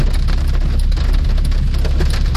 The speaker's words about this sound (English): If it rains like this, well, actually, it rained like that.